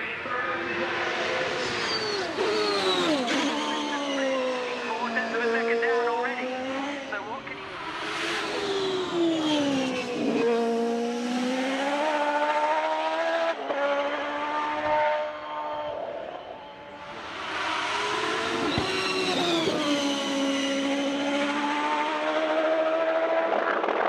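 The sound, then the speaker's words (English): A big, blasting Corvette race car motor of the IMSA type revs loud and continuously, its deep, rich note climbing and falling repeatedly in pitch as the throttle rises and eases. “It was sort of a more refined sounding of that big blasting Corvette motor.”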